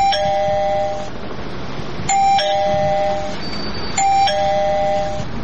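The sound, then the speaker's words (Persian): A battery-powered doorbell at a front door chimes three times at an even pace, each ring a bright, clear electronic tone over steady low background noise. “اوی راستی این زنگ دارن.”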